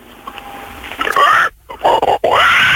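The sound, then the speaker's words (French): A voice imitates a pig's squeal: after a faint lead-in come three loud bursts of high, wavering, nasal squealing, separated by short breaks. “fais le cri du cochon”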